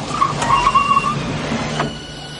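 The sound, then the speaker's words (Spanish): A car arrives in a scene from the 1985 film Back to the Future: a broad rushing engine and road noise with a faint whistling tone, easing off near the end. “Marty llega en su coche.”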